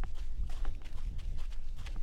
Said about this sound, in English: It's December, and we're going for a run. A run on a desert path near his house.